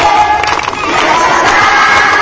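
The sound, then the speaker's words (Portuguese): A crowd sings Happy Birthday in Portuguese, a loud, dense mass of voices carrying the melody together with a steady, sustained sound and no pauses. “Então, a hora que a gente coloca aí o povo cantando.”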